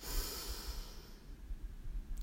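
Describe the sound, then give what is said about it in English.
Deep breathing in and out during a guided relaxation exercise, heard as a faint, soft, airy hiss of slow breath with no talk over it. “Let's take a few deep breaths together. Let's breathe in and out.”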